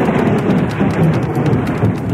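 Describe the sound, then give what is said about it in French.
Thunder rolls through a heavy downpour in a storm, a loud, steady roar of rain and low rumble throughout, with no single sharp crack standing out. “Un coup de tonnerre”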